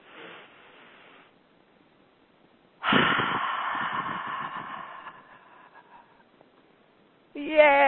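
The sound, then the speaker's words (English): A deep breath drawn in during a group ceremony: a long, breathy rush of air swells loudly and fades over about two seconds, and a voice begins at the very end. “And we'll seal it all in with a deep breath in.”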